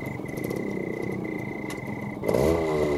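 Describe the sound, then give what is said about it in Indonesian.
A motorcycle arrives at night. Its engine comes in near the end with a rising hum over a steady, continuous cricket chirp and low background noise. “Nah, itu suara sepeda motor Bapak.”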